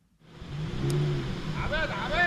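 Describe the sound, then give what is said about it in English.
Cars drive one after another into the parking lot of an upscale shopping center in central Beirut. A steady engine hum builds as vehicles roll in, and voices can be heard in the background. “Car after car enters the parking lot of an upscale shopping center in central Beirut.”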